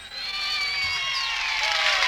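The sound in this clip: An audience cheers at the opening of a live studio recording of an old Motown song, a sustained bright wash of voices with shrill high cries at steady loudness.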